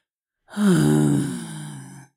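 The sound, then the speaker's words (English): A person's voice imitates a contented bear's blissful sigh, like a bear enjoying a good scratch: a single low, voiced, breathy exhale lasting about one and a half seconds. It dips slightly in pitch at the start, then eases off gradually, heard alone. “A good bear sigh. That was an incredibly good, I can see a bear making that noise. I've been practicing bear noises.”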